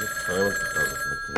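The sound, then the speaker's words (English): A telephone rings for a call to a police commissioner's office in a radio drama, a sustained high, trilling ring with faint voice-like sounds blended in. “Suddenly, the feathered fighter pauses in his labor and places a phone call to the office of the police commissioner of Midland City.”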